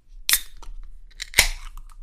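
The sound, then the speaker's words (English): Opening a tall boy can of beer: two sharp cracks, the second louder and followed by a short fizzing hiss, with small clicks in between. “And it's a tall boy, as we know. Yeah, it's a hefty boy. Can I tell you about my beer to start? You can. Okay. I'm gonna open this up.”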